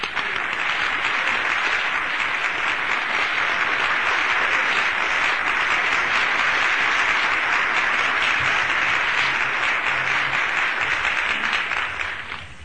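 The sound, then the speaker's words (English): An audience applauds to welcome preacher Dr. B.R. Lakin at an evening service. The clapping is sustained and steady for over twelve seconds, then tapers slightly at the very end. “And let's give him a welcome as he comes tonight, Dr. B.R. Lakin.”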